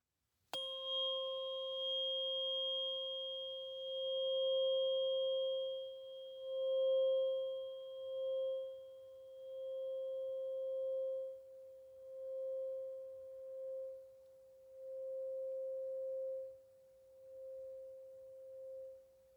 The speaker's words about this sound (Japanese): そう、聞こえる。音叉の音がどこまでも聞こえる。